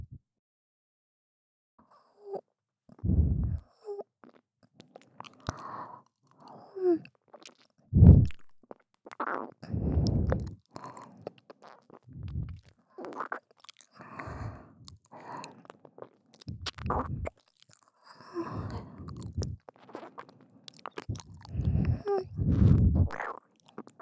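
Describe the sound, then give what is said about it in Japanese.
Soft, wet licking and mouth sounds: many irregular smacks, slurps and small clicks in an uneven rhythm. They are fairly quiet and heard alone, with no talking. “では失礼して、舐めさせていただきますね。”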